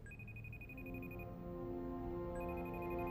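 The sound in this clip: A telephone rings with a faint, high electronic trill. One ring burst sounds, then a short gap, then a second burst that runs on over a low steady hum.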